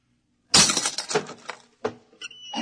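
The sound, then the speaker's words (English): A lock being smashed open: a series of loud, sharp crashing blows with a cracking, splintering, glassy edge, coming in uneven bursts separated by brief pauses. “Let me out. I'll have to smash the lock.”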